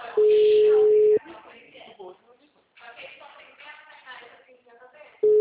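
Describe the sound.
A telephone line tone sounds while a call is being placed: a steady mid-pitched tone lasting about a second, then a gap filled with people talking, then the same tone starting again at the end.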